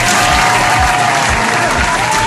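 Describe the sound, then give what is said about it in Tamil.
Applause for a caller who just played a game on a community show, a dense and steady patter of many hands clapping, loud and even from start to finish. “கஸ்தூரி அண்ணா சமயம் விளையாண்டாருல, அவருக்காக ஒரு கைத்தட்டல் கொடுத்துடலாம்.”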